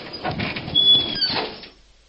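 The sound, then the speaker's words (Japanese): A door being opened gives a soft scraping slide with a thin squeak partway through, lasting under two seconds before fading into silence. “仕方がないから俺はドアを開けた。”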